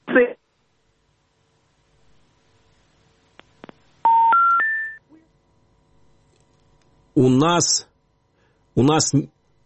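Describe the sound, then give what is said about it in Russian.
Telephone dialing tones sound as a dropped call is redialled, three short electronic beeps stepping upward in pitch, followed by brief bursts of speech. “У нас сорвался звонок. К сожалению, мы сейчас попробуем восстановить связь.”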